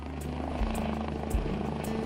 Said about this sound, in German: Der Rettungshubschrauber landet auf dem Wangerooger Flugplatz.